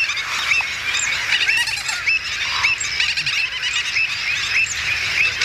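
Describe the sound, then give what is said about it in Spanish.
A dense wetland bird colony of terns, stilts, avocets and flamingos calls all at once: many overlapping honking, yelping and chirping calls form a loud, continuous chorus with no pause. “podemos escuchar ese trabalenguas formado por pagaza, pico negra, charrán, patí negro común, gaveta reidora, boceta, cigüeñuela, flamenco, de todo.”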